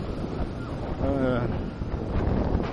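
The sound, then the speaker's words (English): Strong outdoor wind blows straight into the microphone, giving continuous loud, rumbling buffeting and gusty roar that rises and falls throughout. “I can't believe I'm recording this in this kind of wind.”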